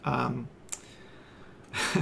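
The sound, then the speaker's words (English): Tongue clicks made by a woman speaker: two short, sharp clicks spaced about a second apart, set between brief stretches of her speech. “I do this click of my tongue every so often, this like thing.”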